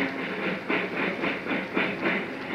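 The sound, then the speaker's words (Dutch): A very large trailer truck passes along a city street, making a loud, steady rumbling roar. A rhythmic clatter pulses through it about every half second, with no voices. “Er komt op de andere kant van de Koolsingel komt op het ogenblik een grote trailer voorbij een ontzaglijk grote trailer”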